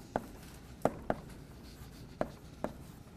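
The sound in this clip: Writing on a board during a lecture on NP-complete problems: five short, crisp taps and strokes of the writing tool, spaced unevenly, each one brief and sharp against a quiet background.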